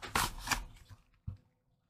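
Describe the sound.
Cardboard packaging rustles as a magazine box holding a ready-made card deck is opened: a couple of quick, bright papery scrapes, then a short dull thump. Faint overall, with near silence at the end.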